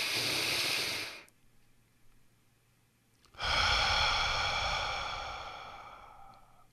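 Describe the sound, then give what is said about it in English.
Breathing from a square-breathing exercise. A loud, airy breath cuts off and is followed by about two seconds of near silence as the breath is held. Then a long, steady breath begins and slowly fades. “when you breathe like a square, it's really good for grounding you. So if you're excited or if you're anxious, when you breathe like a square, it's something like,”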